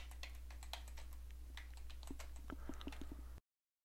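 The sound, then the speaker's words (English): Someone types a password twice on a computer keyboard while signing up for a system login, producing quiet, quick, uneven keystrokes that stop abruptly. “So I'm going to choose mine. Type in my password twice.”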